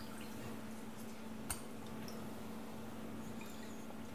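Sweetened liquid, stirred until the sweetener has blended in, pours into a container with a steady, even watery hiss that runs throughout, broken by one brief tap partway through, with no voices.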